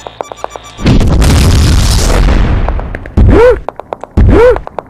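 A deep booming explosion destroys equipment in a video game, with roughly two seconds of loud rumbling blast. Two short, loud synthetic swooping tones follow, and soft regular clicks tick before and after.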